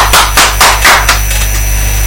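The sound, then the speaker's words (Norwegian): Applause from just two people: a handful of loud, sharp claps in quick succession lasting about a second, then the clapping stops and a steady low hum remains. “Stor applaus ifra hele to personer.”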